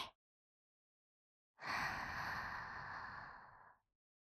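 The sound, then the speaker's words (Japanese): A single long breath drawn in, a soft airy hiss lasting about two seconds that swells and then stops, quiet and alone with no talk. “もう一回、また吸って、”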